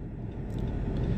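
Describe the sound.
Steady low engine and road rumble from a car driving and making a turn as it nears a taco truck. The drone stays loud and even throughout, with no other sounds.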